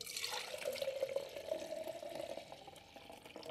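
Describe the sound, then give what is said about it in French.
Hot milk, about half a litre, poured into a measuring jug: a steady, continuous splashing and gurgling stream of liquid, moderately loud and uninterrupted, with no voices. “Donc on va verser le lait dans le verre doseur. Donc là j'ai à peu près 1 demi-litre de lait.”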